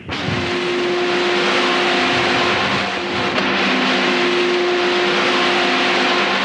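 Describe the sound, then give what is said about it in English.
High-powered crude oil pumps at an Alaskan pipeline pump station, raising crude to nearly 1,000 pounds per square inch, fill the air with a loud, unbroken mechanical roar. Steady humming tones run through it from start to finish. “These high-powered pumps are taking crude that wanders in at about 100 pounds of pressure and whipping it up to nearly 1,000 pounds per square inch”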